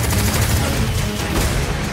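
Gunfire erupts in a staged shootout, a dense, loud barrage of overlapping shots that blur into a continuous rattling roar with no pause.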